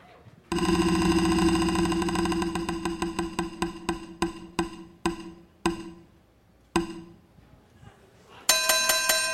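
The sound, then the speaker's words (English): A prize wheel spins with a fast run of clicks that gradually slows, the ticks spacing further apart until it stops, followed by a bright ringing chime. “Let's spin the wheel.”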